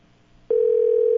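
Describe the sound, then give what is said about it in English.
A telephone line tone sounds as a call is placed to a surprise guest. A single steady pitched tone starts about halfway in and holds unbroken and loud to the end, with no other sound. “As a matter of fact, let's go ahead and let's call our surprise victim. Let's see what they say.”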